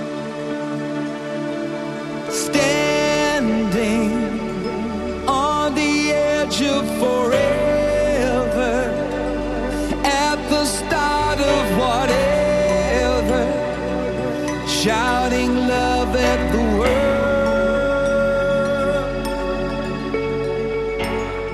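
A pop song plays at full volume, a dense band arrangement with melodic lines that enters after a quieter opening of about two seconds and then continues steadily to the end.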